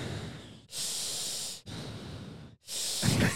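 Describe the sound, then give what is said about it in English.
Heavy, deliberate breathing from a person, several long hissy breaths in and out. The breaths are loud and steady, separated by brief silent gaps, with no talking. “I like to hear my breathing in between words.”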